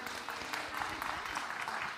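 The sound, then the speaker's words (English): Applause from a church audience: a short, fairly faint burst of many hands clapping in a continuous patter that lasts about two seconds. “Oh, you get applause even if you haven't done anything around here.”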